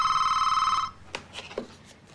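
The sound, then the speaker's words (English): A telephone rings as an outgoing call is placed, giving one short trilling burst of ringing. It stops after under a second, and a few faint, scattered sounds follow. “Give me the phone, I'll call Jolene.”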